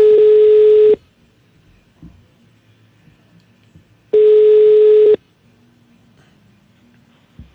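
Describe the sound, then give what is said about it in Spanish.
Two steady ringback tones from an outgoing telephone call, each lasting about a second and separated by a few seconds of near silence with faint background noise. “Ya estamos llamando uno.”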